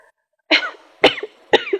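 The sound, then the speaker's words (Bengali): Three short, dry coughs come from a person with a tickly cough and several days of fever. They are loud and evenly spaced about half a second apart, each a sharp burst with a brief rasping tail, with no other sound. “আপনার বেশ কাশি হয়েছে দেখছি।”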